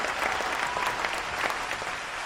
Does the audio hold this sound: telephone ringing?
no